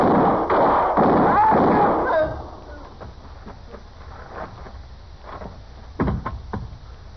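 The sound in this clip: Gunshots in a Western gunfight drama: shouting voices come first, then after a quieter stretch a single sharp, loud gunshot cracks out near the end.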